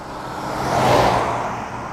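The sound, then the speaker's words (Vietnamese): A luxury car rolls into a rural resort behind dense redwood forest in Northern California, its engine hum and tire hiss swelling to a peak midway and then easing off. No voices are heard. “người ta thấy hàng dài, những chiếc xe sang đang nối đuôi nhau tiến vào khu vực bên trong.”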